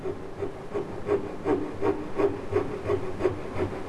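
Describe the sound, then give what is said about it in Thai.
Sanding with a homemade tool whittled from wood: steady, rhythmic back-and-forth rasping strokes, evenly paced and continuous throughout, with no talk. “อันนี้เครื่องมือที่เราจะขัดนะเราก็จะสร้างเครื่องมือตัวนี้เนี่ยขึ้นมาเองเราก็ทำให้มันหลวมกว่าแบบเรานิดนึงนะครับโดยที่เหลาไม้แล้ว”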